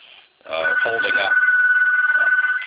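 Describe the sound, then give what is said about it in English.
Telephone on another phone line ringing, a steady high tone held for about two seconds while a voice speaks over it. “And I'm sorry about the ringing. There's another phone line.”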